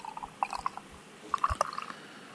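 Dark, black beer glugging as it is poured from a bottle into a glass, heard as two short bursts of wet gurgles and splashes at moderate loudness.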